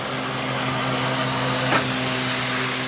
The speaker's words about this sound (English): That sound you're hearing, it's spray painting.